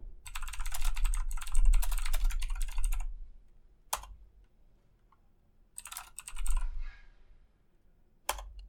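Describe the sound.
Fast typing on a computer keyboard in bursts: a long run of rapid keystrokes, a lone click, a quiet pause, a second shorter flurry, then one more isolated click.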